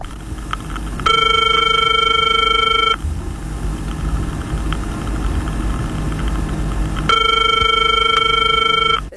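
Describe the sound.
A telephone rings in two long bursts of bright, buzzing trilled tone, with a pause of several seconds between them, over a steady low rumbling background.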